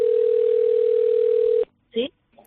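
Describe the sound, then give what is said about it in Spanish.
A telephone dial tone sounds while calling a neighbour: a steady single-pitch hum holds for about a second and a half, then cuts off abruptly, followed by a brief voice sound. “pues he decidido yo también, en vez de mandar un WhatsApp, llamar a mis vecinas”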